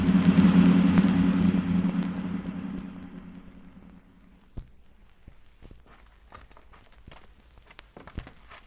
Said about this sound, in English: don't you think you're driving a bit too fast, Nayland